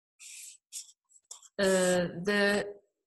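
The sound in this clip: A pencil scratches across paper in a few short drawing strokes, and then a person speaks.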